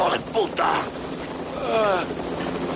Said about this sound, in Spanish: Otro helicóptero aterriza y John levanta las manos mientras los agentes corren hacia él apuntándolo.